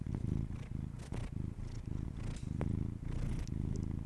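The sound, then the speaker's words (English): A cat purrs right into a microphone, a steady low rumbling purr with a soft pulsing rhythm and no voices. “He's just gonna purr into the microphone. The purrs like vibrate my ears.”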